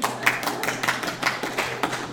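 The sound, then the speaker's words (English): An audience claps during a round of applause for people in the front row: brief, scattered, fairly loud claps in an uneven rhythm, with no voices. “we have to have a round of applause for the four ladies sitting on the front row.”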